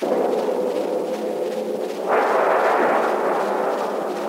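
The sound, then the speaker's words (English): A cannon shot fired at a ship bursts out midway as a sudden, dull roar that lingers as a rough rumble to the end, over a constant background hiss. “A direct hit. She's blown to pieces. Fire! Where's the man that fired that shot?”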